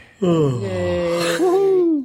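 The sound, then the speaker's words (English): A person gives a long, loud, voiced yawn lasting nearly two seconds. Its tone slides downward before a brief catch and a final drawn-out note. “Did you just yawn”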